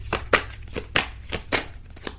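Tarot cards being shuffled and drawn, a quick run of crisp papery slaps and riffles repeating in an uneven rhythm, moderately loud with no voices.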